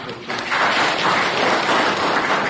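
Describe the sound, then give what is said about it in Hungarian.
Applause from a church audience thanking those behind the pew and heating renovation. The clapping starts after a brief quiet moment and holds steady and dense to the end. “Úgyhogy tapsoljuk meg azokat, akik fáradoztak ezen, meg önmagunkat is”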